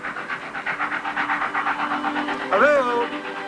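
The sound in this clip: A train pulls away from a deserted platform, producing a steady series of regular, rhythmic chuffing pulses, with a brief voice cutting in near the end.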